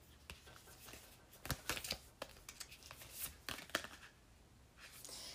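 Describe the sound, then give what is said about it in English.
Oracle cards drawn from a deck during a tarot reading produce faint, crisp snaps and papery rustles, a loose series of many light clicks that bunch together in the middle. “Okay, so I just pulled four cards right now.”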